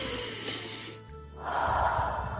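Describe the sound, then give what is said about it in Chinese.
A deep breath is taken during a guided breathing exercise: a slow, airy inhale, a brief quiet pause, then a fuller, louder exhale. No talk is heard. “好，跟着我来，大口的深呼吸。”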